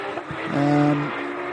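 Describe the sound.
Race car engine on a circuit, a brief tonal whine that swells into a steady, louder drone for about half a second before easing back to a lower hum.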